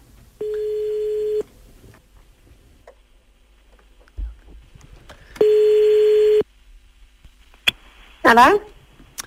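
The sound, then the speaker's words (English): A telephone call is placed: two long, evenly spaced ringback tones sound. A click and a brief voice answering follow. “Let's dial this number.”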